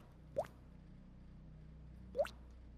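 Faint drips of blood falling from a severed wrist: two soft, separate plops spaced almost two seconds apart over a low, steady background hum.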